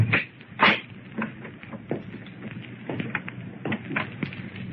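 An unlocked house door is opened with a few soft wooden clunks and light rattles scattered through the quiet, with no talking.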